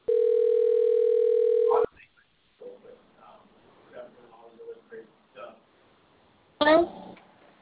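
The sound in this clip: Telephone ringback tone while placing a call: one steady, even tone held for almost two seconds, then it stops and quieter voices talk in short phrases, with a brief noisy burst near the end.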